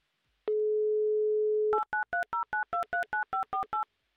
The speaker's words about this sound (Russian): Так, номер набран. Будем ожидать писка, то есть соединения.